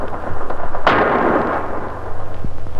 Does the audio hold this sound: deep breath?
no